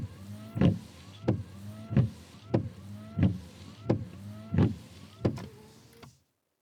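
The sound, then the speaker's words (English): Car windshield wipers sweep back and forth in a steady, regular rhythm. Each pass is a motorized whir ending in a sharp thump, and the sweeps repeat many times before stopping abruptly. “This is a sound that I have been used to for the past 3 or 4 weeks. It is windshield wipers.”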